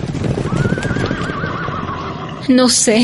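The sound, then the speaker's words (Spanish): Horses galloping in the distance: a long, wavering whinny rises over soft hoofbeats. A few short, sharper snorting bursts follow near the end. “¿No oyes? ¿No escuchas a lo lejos un galope de caballos? Sí, los escucho.”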